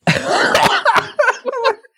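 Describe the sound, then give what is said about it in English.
A loud, sudden snort breaks out among several quick, breathy, noisy bursts resembling stifled laughter, heard alone without speech. “What was that? I wasn't expecting to snort. I was just trying to pass it off real quiet.”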